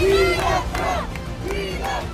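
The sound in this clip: Crowd cheering and shouting in Upper Manhattan as former President Trump arrives at a bodega, loud massed voices rising in a few repeated shouted bursts.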